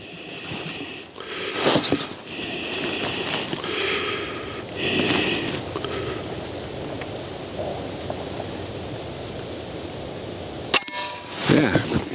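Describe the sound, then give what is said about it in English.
Metallic clicks and clanks from a rifle magazine being reloaded between shots: a few sharp bursts spread over a steady background hiss, with quieter stretches between them. “So I'm going to reload the magazine, and we'll do some more shooting.”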